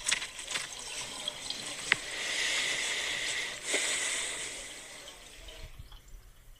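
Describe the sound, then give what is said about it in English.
A man washes his hands under running water: a steady hissing flow broken by a few sharp drips and splashes, easing off near the end. “Let Me Be Frank, and it's him washing his hands.”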